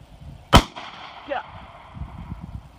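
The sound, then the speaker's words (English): A single sharp gunshot from a gun fired toward a tree line, a loud crack that fades quickly into a low, faint rumble. “Put the safety on your left side with your thumb. Fire when you're ready.”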